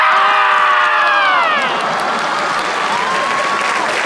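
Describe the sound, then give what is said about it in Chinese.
A performer's voice imitates a marmot's scream during a crosstalk comedy act, a loud drawn-out shout sliding downward in pitch. The audience then breaks into applause and cheering that carries on to the end. “头一回听说土拨鼠这么喊。”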